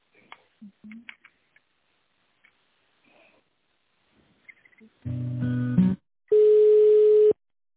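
Telephone ringing tone as an office call is transferred to a manager: after faint scattered noises, two loud steady tone bursts sound, the second a clean, single held pitch lasting about a second.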